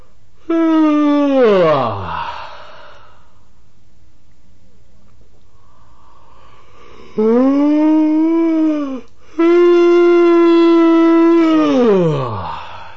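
A male patient yawns during a Reichian therapy session, giving three long, drawn-out voiced yawns separated by quiet. The first and last yawns end with a falling pitch.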